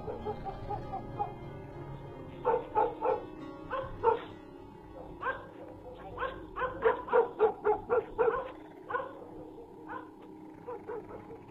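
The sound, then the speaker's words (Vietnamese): Dogs in a small alley bark loudly in many sharp, irregular bursts, some barks clustered quickly together and others fainter, over a low background murmur. “Ở đấy không có ai, thế nhưng chẳng hiểu làm sao chó của cái ngõ nhỏ này cứ chõ sang bên đấy mà cắn ông ổng.”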